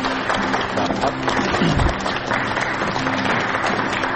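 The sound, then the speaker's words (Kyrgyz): Studio audience applause on a television program, dense steady clapping that holds at an even level for the whole span. “буга чейин Азаттыкты алып барып жүргөн биздин алып баруучубузду кол чаапыңар сагандар.”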